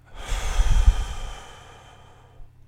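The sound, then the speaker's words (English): A slow, deep breath out through the mouth, a breathy exhale that rises quickly and then fades over about a second and a half, followed by a faint, short breath near the end. “And this is how you deep breathe.”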